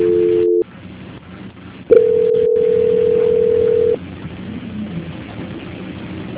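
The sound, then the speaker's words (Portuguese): Telephone line tones sound while a call is being transferred: a brief steady tone, a gap of faint line hiss, then a louder sustained tone lasting about two seconds, followed by low line noise. “Só um minutinho que eu vou transferir a ligação. Não desliga, tá? Tá bom. Transferência.”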